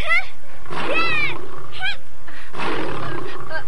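Tiger roaring, heard as a few harsh, loud bursts of growling roar with rough, grainy harmonics, separated by short gaps.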